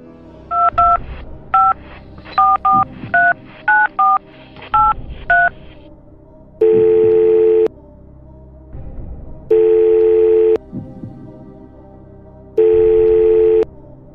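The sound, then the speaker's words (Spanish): Telephone keypad dialing a call: a quick, irregular string of touch-tone beeps, then three long, loud ringback tones separated by pauses of faint background noise. “hacemos la quinta y última llamada”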